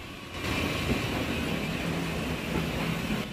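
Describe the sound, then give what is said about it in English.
A steam train rumbles past the tiny platform at Erdington Holt. Its rolling roar with rail clatter starts abruptly and then holds steady and sustained to the end. “Spectators on the tiny platform at Erdington Holt wave to the passing train.”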